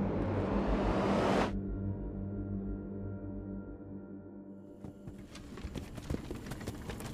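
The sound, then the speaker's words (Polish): A barred wagon travels over a bumpy forest road. It opens with a broad whoosh that cuts off abruptly, then settles into a low rolling rumble, with irregular clattering knocks building near the end. “Wóz z kratami przemierzał wyboje leśnej drogi,”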